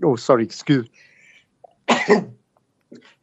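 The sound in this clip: A person sneezes once in a sharp, loud burst, preceded by short voiced sounds and followed by quiet with faint breathy noises.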